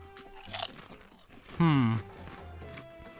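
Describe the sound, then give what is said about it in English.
Crunching on taco-flavored snack chips: a few crisp bites and chewing crunches, with a voiced humming sound in the middle and people talking around it. “I can taste taco. Like taco meat and seasoning. I taste the meat and seasoning, which is already step up from those stupid Lay's carnitas ones that we did.”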